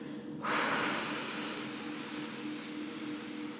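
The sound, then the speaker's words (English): A long, steady exhale of breath: a soft onset rising into a broad, airy whoosh that carries on evenly for about three seconds. “So let's exhale.”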